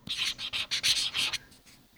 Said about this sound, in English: He's got a Sharpie and Post-it notes. And he's going to write this down real quick.